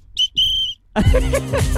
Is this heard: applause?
no